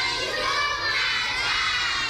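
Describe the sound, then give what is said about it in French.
Children in khaki uniforms shout and play at primary school recess in a city-centre school, a dense, loud, unbroken din of high, overlapping young voices for the whole stretch. “Des enfants en uniforme kaki jouent pendant la récréation.”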